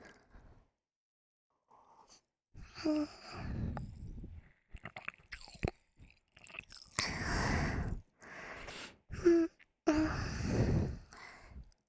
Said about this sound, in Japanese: 耳の近くで飲んでるだけだよ。